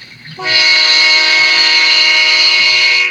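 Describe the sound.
Train horn blaring beside the railway tracks: after a brief low rumble, a loud sustained multi-note chord sounds and holds steadily for a few seconds over the noise of the train.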